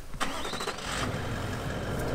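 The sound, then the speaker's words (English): A vehicle engine starts near a front-line artillery gun position in Ukraine, with a brief cranking whine followed by a steady, rumbling idle. “We get back to our vehicle. So let's go.”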